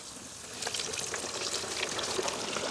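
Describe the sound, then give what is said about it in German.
Breaded, pre-seasoned Franconian carp deep-fries in hot oil in a kitchen, giving a dense, steady crackling sizzle and hiss with no talking. “Ich werde jetzt live für euch diesen leckeren fränkischen Eischgründer Karpfen frittieren.”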